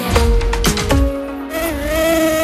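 Buzzing whine of a tiger mosquito: a steady, rich droning tone with many overtones that wavers slightly in pitch and carries on through the whole clip.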